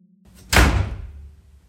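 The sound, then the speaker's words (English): A door slams shut in a room of an old building: a single loud, heavy thud that rings briefly and fades. “one of the doors slammed shut. It startled us.”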